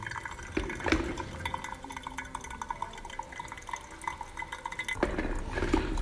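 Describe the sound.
Hot water is poured over ground coffee in a continuous, fairly quiet trickle with soft splashing and faint drips, growing slightly louder near the end.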